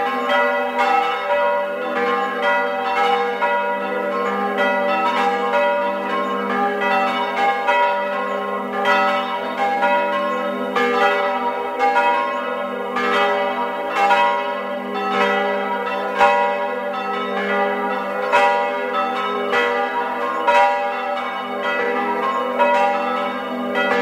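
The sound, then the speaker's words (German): Church bells of the parish church in Fendels, in Tyrol's upper Inn valley, ring at noon. Many steady, evenly spaced strikes overlap with sustained metallic overtones, heard alone without voices. “Es ist 12 Uhr. Sie hören die Glocken der Marienkirche in Fendels im Tiroler Oberland.”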